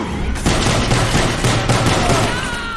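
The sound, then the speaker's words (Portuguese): Loud revolver gunfire in a video game, fired point-blank, with a few sharp shots rising above a dense, continuous wash of noise. “pega e atira o apostador a queima-roupa com a Piton Manson. Não, com a Piton Manson.”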